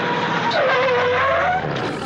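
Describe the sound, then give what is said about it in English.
A car arriving at a municipal court, a steady loud engine rush with a high tire squeal running through most of the moment, no voices. “Oh, look, isn't that Mr. Stonyfeller's car?”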